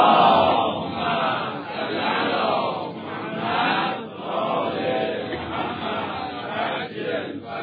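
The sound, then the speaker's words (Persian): An audience recites salawat together during a religious lecture on the Quran. Many voices join in one loud chorus that swells and ebbs in several waves. “برای این که بفهمم خسته نشدید صلواتتون رو ببینم.”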